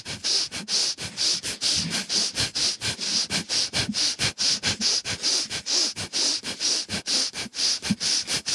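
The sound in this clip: Rapid, rhythmic breathing during a breathwork exercise with pelvic floor squeezes: many short, sharp breaths in an even, quick pulse, loud and alone with no talk.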